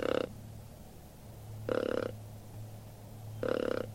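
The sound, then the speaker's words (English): A plastic tube deer call imitates a mating buck: three short, low, guttural grunting bursts, evenly spaced, over a steady low hum, with no talk. “Doherty has all sorts of apparatus to lure his prey. He has a plastic tube to imitate the sound of a mating buck.”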